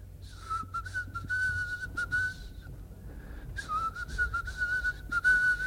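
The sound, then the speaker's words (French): A person whistles a favourite tune in clear, fairly high notes, playing two melodic phrases separated by a short pause, with faint low background noise underneath. “je siffle depuis des années un air que j'adore.”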